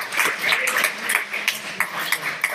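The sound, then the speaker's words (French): Church audience clapping during a sermon: scattered, uneven claps pop out one after another at moderate volume over a low background murmur. “Est-ce qu'on peut acclamer cela ce matin pour Dieu, Seigneur?”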